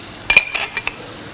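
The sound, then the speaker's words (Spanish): Chorizo and chickpeas go into a cooking pot with a handful of light metallic clinks and taps of utensil against cookware, brief and bright, then quiet. “Venga. El choricito también aquí. Mira, los garbanzos se los vamos a poner ya directamente.”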